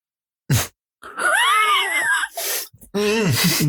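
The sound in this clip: A person groaning in long, wavering moans that swell and sag in pitch, broken by short breathy gasps and pauses.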